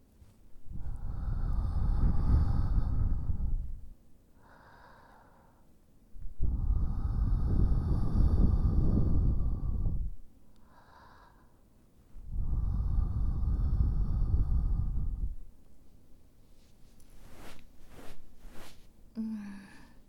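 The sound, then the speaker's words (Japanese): Three long, breathy blows of air into an ear to clear away fine earwax, each lasting a few seconds and separated by short pauses, followed by a few faint clicks. “これからお耳にふーっと息を吹きかけて細かい耳垢を飛ばしていきますね。”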